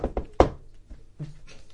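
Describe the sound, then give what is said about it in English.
Knocking on a door, heard during a tabletop horror role-playing game: a few hard, dull knocks in quick succession, followed by softer, low thuds. “Oh no, ignore the knock. No one knocks on the door”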